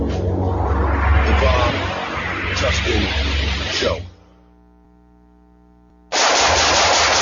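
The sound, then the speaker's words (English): Sustained rattling gunfire, a loud dense burst that runs about four seconds, breaks off into a low steady hum, then resumes just as loud at the end. “Nice shooting.”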